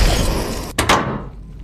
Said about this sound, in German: Traudel, Kapsel schließen.